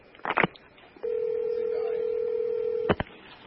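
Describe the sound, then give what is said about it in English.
A telephone being dialed to call someone back: a quick cluster of keypad tones, a long steady line tone, then another brief burst of keypad beeps. “I'm calling him back. He hung up on me.”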